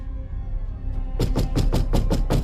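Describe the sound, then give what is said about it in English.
Rapid, insistent knocking on a front door at night: a quick series of sharp, evenly spaced raps that starts abruptly after a quiet stretch of low hum. “Don't you ever knock on my door like that in the middle of the night again.”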